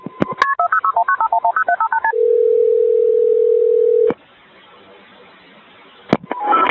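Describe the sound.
Telephone sounds opening a 911 emergency call: a rapid string of many touch-tone dialing beeps, then a single steady tone held for about two seconds, followed by a quiet hissing line and a few sharp clicks.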